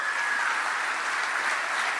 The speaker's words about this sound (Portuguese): Dá uma glória a Deus aí. Vocês estão muito pentecostal também. Aplaude o nome de Jesus aí.